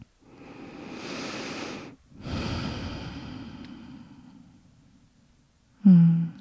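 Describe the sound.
Deep breathing in and out during a guided mindfulness exercise: a long, soft airy inhale, a brief pause, then a longer, slowly fading exhale, followed by a voice starting at the end.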